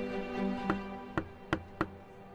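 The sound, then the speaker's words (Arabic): Knocks on a door, four sharp, distinct raps: a single knock, a short pause, then three more in quicker succession over a faint steady background. “وإذا بدقة على الباب.”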